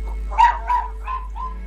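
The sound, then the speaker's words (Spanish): A dog barking excitedly in four short, high, yelping barks that grow softer, over a steady low hum. “tenemos a Gaspar ahí que está ladrando como loco, no sé qué le pasa”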